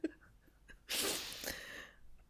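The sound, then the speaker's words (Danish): A single sudden sneeze, a loud breathy burst that tails off over about a second, with faint breathing before and after. “Jeg ved ikke lige, hvad der skete der. Jeg nøs meget pludseligt.”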